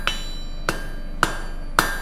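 Four sharp hammer blows strike metal during metalwork restoration by a metalworker. The blows are evenly spaced about half a second apart, each with a bright ringing clang, and no voices are heard.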